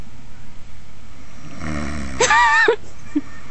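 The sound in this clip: A man snoring: one drawn-out snore that starts as a breathy rasp and turns into a whining, pitched rattle, then stops with a short snort.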